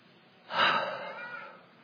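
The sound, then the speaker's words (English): A breath drawn in and then let out, a soft airy hiss that swells quickly and fades away over about a second, heard alone with no talking. “Take a breath and exhale.”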